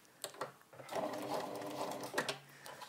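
A quiet sewing machine stitches fabric during a sewing session, running in a few short bursts around a steady, faint whirring run of rapid stitches.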